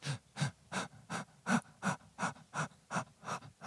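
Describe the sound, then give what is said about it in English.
Short, quick inhaled breaths, about eleven in an even rhythm of roughly three per second, soft and with no other sound. “But imagine just doing this. Little breaths only in.”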